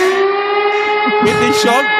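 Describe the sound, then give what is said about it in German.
A siren sounds as one loud, steady tone at a fixed pitch with strong overtones. It runs for the whole two seconds, and voices can be heard beneath it. “Sirene”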